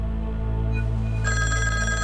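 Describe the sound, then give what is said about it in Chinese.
A telephone rings, its bright electronic trill starting partway through and sounding over a steady low background hum. “对不起，我接个电话。”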